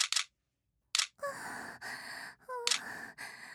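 A camera shutter fires a few crisp, bright clicks while photos are taken. Between the clicks come breathy sighs, and pauses of silence separate the bursts.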